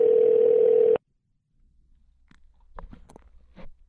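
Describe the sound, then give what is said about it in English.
Telephone ringing: a single loud, steady electronic tone lasting about a second cuts off abruptly, followed by silence and then scattered faint clicks and small handling noises. “Am I talking loud enough over the rings?”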